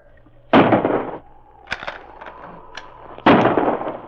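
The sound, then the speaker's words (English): Gunshots traded in a dramatized shootout between a Mountie and crooks on a mountain trail. Two loud, ringing blasts frame a few sharper, quieter shots in between. “Sergeant Preston dared not go from behind the boulder without being a target for the crook's bullets. For about 5 minutes, intermittent shots were exchanged.”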